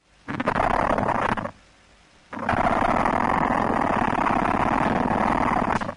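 Ant queen stridulating by scraping the back end of its abdomen against itself, a dense, rough buzzing rasp in two bursts, a short one and then a longer steady stretch after a brief pause.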